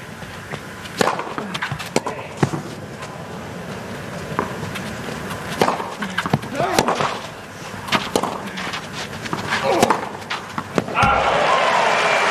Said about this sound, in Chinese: 终于把一发发进去了，这也是本场比赛他的第一个拿到的这个一发赢球。